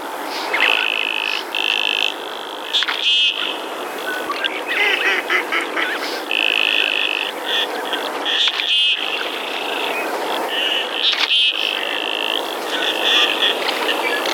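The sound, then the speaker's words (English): Common goldeneye diving duck display calls: many short, buzzy, nasal calls in irregular bursts, some overlapping, over a constant bed of hissing background noise, with no voices. “It's a common goldeneye, a very handsome diving duck, which is a common winter visitor in our area.”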